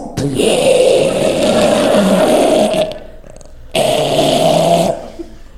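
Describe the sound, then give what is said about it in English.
A voice imitates a man snoring in his sleep, with two long, loud, rasping breaths of a second or more each, separated by a short quiet gap. “And people knew he was asleep because his breathing changed. So normally he breathed like this. And then when he would fall asleep, it turned into this.”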